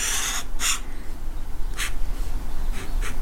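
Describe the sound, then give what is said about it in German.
An ink pen scratches across paper while drawing the outer outline of a figure's head. A few short, dry scratchy strokes come in separate bursts over soft background hiss, with no voices. “Und diese Geräuschkulisse bei der Tusche ist natürlich Musik in meinen Ohren.”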